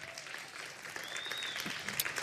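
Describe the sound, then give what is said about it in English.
An audience gives a steady round of applause, a continuous dense patter of many hands clapping for mothers on Mother's Day that holds at an even level throughout. “Everybody give our mothers a big hand clap.”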